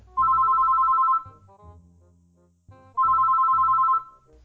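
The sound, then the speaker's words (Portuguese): A telephone ring tone sounds while a call is placed to a building's front desk: two steady, moderately pitched electronic tones, each about a second long, separated by a pause holding faint low rumbling. “Vou ligar na portaria”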